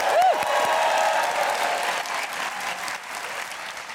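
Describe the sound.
Audience applause at a Dublin storytelling slam, welcoming the first storyteller of the night: dense, steady clapping that gradually thins and softens over a few seconds.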